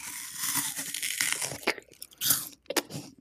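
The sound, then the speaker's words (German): Crisp crunching as teeth bite into and chew an unpeeled apple with its skin on: several sharp, loud crunches with softer chewing between them, no talk. “Hast du eigentlich deinen Apfel geschält? Nee, meiner ist mit Schale und allem drum und dran. Kann man super so essen, ne? Wir haben ja prima Zähne.”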